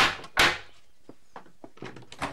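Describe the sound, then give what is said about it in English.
A front door being opened at a doctor's house, starting with a sharp clack and followed by a few faint clicks and small knocks. “The doctor opens the door.”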